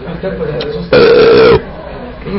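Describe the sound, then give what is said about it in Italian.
A loud, drawn-out burp after eating sandwiches rises abruptly out of surrounding talk, holds a rough, steady tone for just over half a second, then cuts off. “Questi panini fanno ruttare.”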